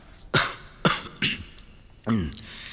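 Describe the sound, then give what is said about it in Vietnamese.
A man gives a few deliberate, fake coughs, four short harsh bursts spaced unevenly, the last one rougher and more throaty, like throat clearing, with no other sound around them. “Minh đã chuẩn bị sẵn, làm bộ ho mấy tiếng và đáp”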